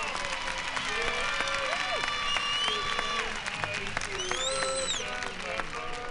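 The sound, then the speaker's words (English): An audience applauds a performer. Steady clapping and crowd noise run throughout, mixed with sustained tonal sounds that rise and fall on top. “Give Tommy another great round of applause.”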